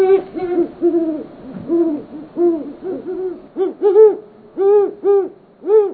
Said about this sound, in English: Hoots of the male great horned owl are lower in pitch than those of the female. Now, listen for the moment the female flies in to join the male.